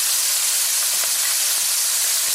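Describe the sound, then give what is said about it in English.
Raw shrimp sizzling in hot oil in a pan: a loud, continuous bright hiss with faint crackles running underneath, and no talking. “we're heating some oil in our pan. So we're gonna add our shrimp here first. So we are using raw shrimp.”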